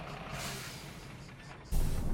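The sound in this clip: A bus pulls to a stop on a mountain road. Its engine rumbles steadily, then near the end a sudden loud burst of hissing air from the brakes takes over.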